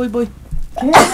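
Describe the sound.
A person sneezes once: a single abrupt, breathy burst right after a few short spoken words.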